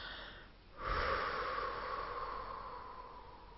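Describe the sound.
A relaxed, audible exhale through the mouth: one long, soft, breathy rush of air that starts suddenly and slowly fades over about three seconds, with no talking.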